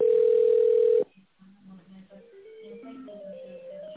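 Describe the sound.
A telephone ringback tone sounds while a call is transferred to technical support: one steady, mid-pitched tone lasting about a second, then a soft, simple electronic melody of shifting notes plays on.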